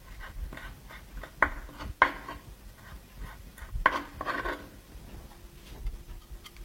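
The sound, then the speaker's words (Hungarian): Knife chopping a small bunch of herbs finely on a board, heard as a few sharp, irregular taps over faint quiet ticking, with no voices. “Körülbelül egy ilyen kis csokornyira lesz szükségünk. Felaprítjuk jó apróra, és hozzárakjuk.”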